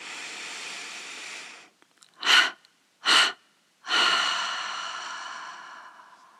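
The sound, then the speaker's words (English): Slow breathing through the mouth during a meditation, with a few distinct breaths: long, airy breathy sounds alternating with two short, sharper intakes of air, heard alone in otherwise quiet surroundings. “Take a nice inhalation and exhale 3 times from the mouth.”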